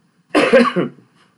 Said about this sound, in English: Excuse me, I'm dealing with a little bit of a cough and cold